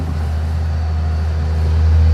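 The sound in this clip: A forestry harvester driving across a field gives a deep, loud, continuous engine drone that swells slightly toward the end.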